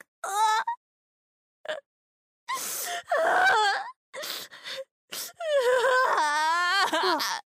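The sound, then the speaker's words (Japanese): Someone crying loudly, with wailing, sobbing bursts that rise and break, separated by short silences and sharp gasping breaths, ending in a long, drawn-out wail. “泣いちゃった。最近すぐに泣いちゃうね。”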